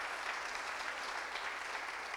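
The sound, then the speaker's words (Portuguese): A church audience claps hands in praise. Dense, steady applause from many people forms an even, unbroken wash of claps with no pauses. “Can you give him a hand clap of praise?”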